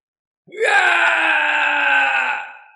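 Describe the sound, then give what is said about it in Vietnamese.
A mournful wail from a demonic old monk: one sustained, loud, tonal cry lasting about two seconds that rises briefly at the start, holds steady, then fades away. “Một tiếng kêu thê lương vang lên”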